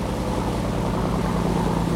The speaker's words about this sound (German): Und nochmal geht's mit dem Schlauchboot schnell weiter übers Meer.